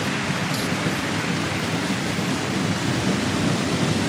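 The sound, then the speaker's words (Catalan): A stadium audience applauds a flamenco dancer, a dense, loud, continuous roar of clapping that holds steady throughout. “And now we're listening to the applause for the dancer, Cristina Hoyos.”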